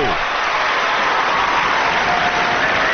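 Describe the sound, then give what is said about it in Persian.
Applause fills the whole clip as a dense, steady wash of clapping that keeps the same level throughout. “بزن دست قشنگه رو.”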